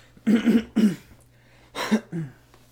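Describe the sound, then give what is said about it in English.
Someone clearing their throat: a few gruff, voiced rasps come in two pairs separated by a short pause, against a faint low hum. “I can't clear my throat right now.”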